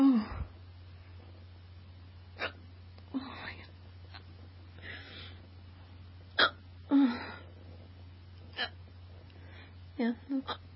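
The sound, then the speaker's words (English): A person's hiccups: a series of short, sharp, fairly quiet bursts at irregular intervals, some falling in quick clusters near the end, over a low steady hum. “my hiccups are so crazy”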